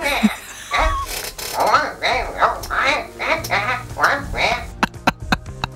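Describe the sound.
A person imitates a cartoon duck's voice, producing a rapid run of nasal, squawky quacking syllables in a jabbering rhythm, followed by a few sharp clicks at the end.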